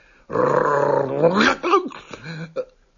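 A dog growls in a long, low, rumbling snarl, followed by a few shorter, broken snarling bursts and yelps, loud and close.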